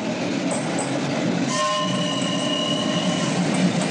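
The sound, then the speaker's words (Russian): A train pulls away from a snow-covered station platform, its cars producing a steady rolling rumble. A sustained horn tone enters partway through and holds over the continuing movement. “Поезд уезжает.”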